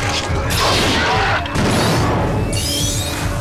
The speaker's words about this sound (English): The pirate is hit and knocked backwards into the lift. As the doors close, he explodes.